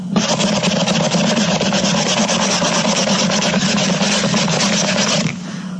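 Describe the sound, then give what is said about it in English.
Steady rubbing of a clean rag over a glass bottle: a continuous, even, rasping friction that keeps going without a break for about five seconds, then stops abruptly. “Now I've got my new bottle in one hand and a clean rag in my other hand. I'm going to rub it until it looks new again.”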